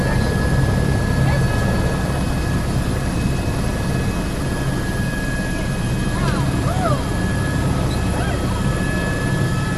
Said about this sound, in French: alors en fait on décolle assez rapidement avec une manette qui est directement donc pris en charge par le conducteur